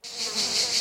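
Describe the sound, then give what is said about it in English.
Cicadas chirp at dusk in a continuous, high, buzzing drone that holds steady through the short stretch. “I guess it's getting dark now because that's the sound of cicadas.”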